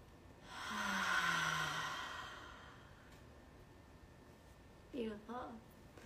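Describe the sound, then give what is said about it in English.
A deep, audible breath taken together during a guided morning routine: a long breathy sigh swells and fades over about a second and a half, followed later by a brief voiced sound. “Taking one deep breath collectively.”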